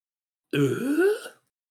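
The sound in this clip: A voice imitates a single drawn-out grunt in the style of Tim Allen, lasting just under a second. The throaty sound slides upward in pitch before cutting off, and it is heard alone.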